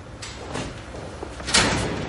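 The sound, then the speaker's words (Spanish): A wooden and glass door closing as someone leaves a home, heard as a few soft knocks and sliding bumps, the loudest near the end, with no voices. “Abre unas puertas de madera y cristal. Sale de la vivienda y cierra la puerta que accede directamente al portal de un edificio señorial.”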